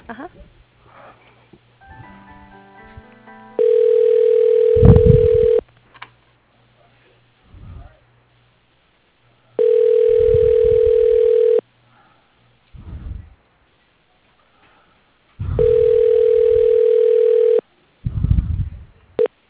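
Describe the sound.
Tones on a phone line as a call is transferred to voicemail: three long, steady electronic tones, each about two seconds, evenly spaced, with faint talk and small noises in the gaps between them.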